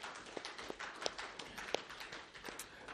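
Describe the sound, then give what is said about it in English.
A church audience applauds, a faint, continuous patter of claps with a few sharper single claps standing out now and then. “So this morning, give God a round of applause for what He's doing”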